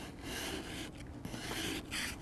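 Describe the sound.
A hand tool supplied with a car scrapes a harder patch of material off a surface. The rough, continuous rasping comes in strokes with brief pauses and stays quiet, with no talk.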